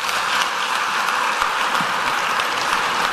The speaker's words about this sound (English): He's receiving a standing ovation here at the Kansas City Convention Hall downtown, right across the street from the new Kauffman Center for the Performing Arts.